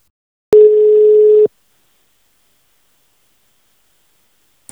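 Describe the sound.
A telephone dial tone plays while a call is placed. It is a single steady mid-pitched tone lasting about one second, then silence, with a short click at the very end.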